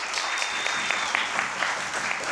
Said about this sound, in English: One last applause for Mr. John Maharaj and Mr. Vito Rezza.